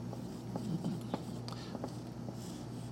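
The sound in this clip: Faint, short scratchy strokes of handwriting during a lecture, a few light scrapes and taps over a low steady hum.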